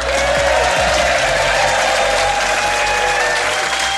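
Loud, sustained audience applause at Richmond Theatre welcoming a comedian onto the stage, a dense, even wash of many hands clapping that holds steady throughout.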